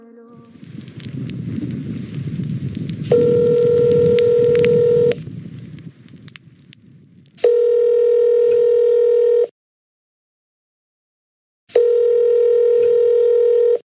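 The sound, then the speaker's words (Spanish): A telephone call rings out: three long, steady ringing tones separated by silent gaps. They follow a stretch of low, crackling noise. “Estás llamando a Rituales de Resistencia.”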